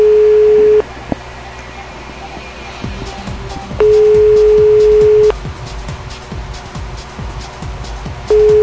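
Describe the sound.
A telephone ringback tone plays for an unanswered call to a company line in Lima: a steady mid-pitched tone sounds in long bursts separated by pauses of a few seconds, with faint voices murmuring underneath.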